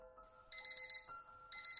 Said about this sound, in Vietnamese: Tiếng chuông báo thức vang lên